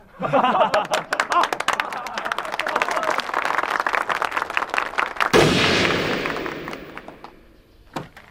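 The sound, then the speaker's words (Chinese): Gunshots fired outside during a wedding: a rapid series of sharp cracks, then a louder burst near the middle that fades slowly, and one more crack near the end. “哪开枪呢？让他停下！大喜日子开什么枪？”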